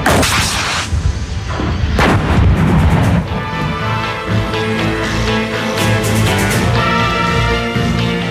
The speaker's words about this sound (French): Fermeture automatique de la culasse. The breach closes automatically. Et bien sûr, tir.